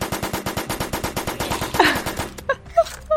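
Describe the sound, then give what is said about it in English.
Rapid assault rifle fire from a video game, a long steady run of evenly spaced loud shots that breaks off near the end, followed by a few scattered softer sounds. “The assault rifle is working pretty well though.”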